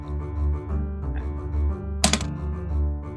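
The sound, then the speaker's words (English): A d20 die rolled on a table makes a short, sharp rattle of hard clicks partway through, standing out briefly above a steady low background hum. “We're just rolling a d20 and adding our spell, my spell modifier.”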